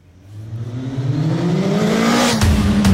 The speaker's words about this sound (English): in a high-speed chase, Jay shoots Sahir in the shoulder, but Sahir gets away